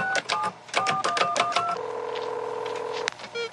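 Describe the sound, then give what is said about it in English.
Telephone touch-tone dialing into a school computer: a quick run of many short dual-pitched beeps, then a longer steady electronic tone that ends with a short burst of further tones. “What are you doing? Dialing into the school's computer.”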